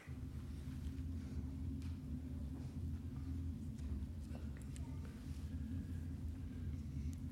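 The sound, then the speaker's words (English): Low, steady engine and road rumble of a car driving at night in fog, played from a video, continuous and quiet throughout with no talk over it. “I'm going to begin the sermon this evening with a short video of familiar driving conditions from the last couple of days.”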